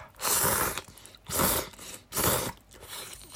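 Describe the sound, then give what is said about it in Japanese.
Crunchy chewing of a dish heaped with green onions: three loud crunching bursts in steady succession, then a softer fourth. The chewing is heard alone, with no talk. “咀嚼音がしますんでご注意ください。いただきまーす。”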